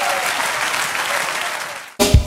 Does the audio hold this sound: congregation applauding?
yes